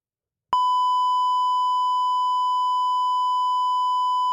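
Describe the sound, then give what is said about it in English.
A censor bleep: a single pure, high-pitched tone that cuts in abruptly after a short silence and then holds steady and loud for about four seconds. “Got the bleep.”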